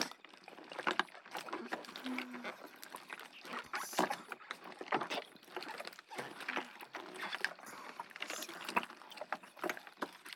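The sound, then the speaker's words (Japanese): Slime being stirred gives a continuous stream of soft, wet squelches, sticky clicks and slurps. The sound is quiet and steady throughout, with no clear talking. “こうして右耳でスライムをかき混ぜて、左耳で優しくささやき続けてやりますね。”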